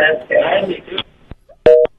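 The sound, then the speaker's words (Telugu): Telephone line cutting off during a radio call-in: a voice speaks briefly, then a click and a short, loud two-tone beep as the connection drops. “నా good evening నాకే వినిపించింది, line cut అయిపోయింది.”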